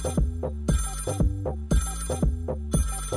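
A telephone ringtone sounds for an incoming call to a baseball player being interviewed on a program. It plays as a repeating musical ring in short bursts and longer phrases, steady and fairly loud, with no talking.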